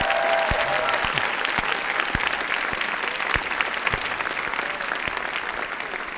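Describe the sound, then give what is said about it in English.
Loud, sustained applause from a huge crowd of about 10,000 people at a solidarity event, a dense, even roar of clapping with sharper individual claps popping through. “why don't you put your hands together and express solidarity with these people?”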